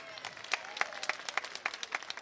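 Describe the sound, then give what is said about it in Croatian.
Applause from a summer festival audience in Zenica: many hands clapping in a dense, steady patter of sharp, overlapping claps at moderate loudness. “I zamolit ću vas svakako i za jedan veliki aplauz podrške za moje drage kolege koji nam šalju ovu prelijepu sliku iz Zenice širom svijeta.”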